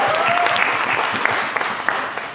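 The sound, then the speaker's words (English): Audience applause, a dense, steady wash of many hands clapping together, loud and continuous from start to finish, with a few sharper individual claps standing out. “So let's just welcome them and give them a round of applause.”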